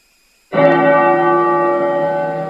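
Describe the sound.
A temple bell rings at a Buddhist nunnery ceremony: one strike after a short silence, then a rich, sustained tone full of overtones that hangs on and fades only slightly.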